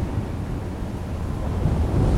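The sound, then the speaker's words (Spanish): Strong wind batters a ship rocking at sea, a steady low rushing roar of air and water that swells slightly toward the end, with no voices. “El barco se mueve muy brusco con el viento.”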